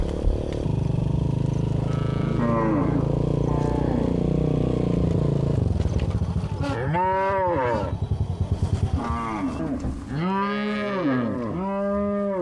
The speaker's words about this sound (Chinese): 牧牛人杨继明放牧的牛群足足有2000头，这是他最惬意的时刻。